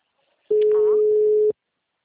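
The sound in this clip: One steady, mid-pitched ringback tone of an unanswered telephone call sounds for about a second, starting and stopping abruptly, with a voice speaking briefly over it.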